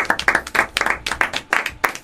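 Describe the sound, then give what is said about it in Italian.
A class applauding gives many sharp claps in a quick, fairly even rhythm, bursts following one another steadily for about two seconds. “Philip Seymour Hoffman, e vorrei che facciate un applauso”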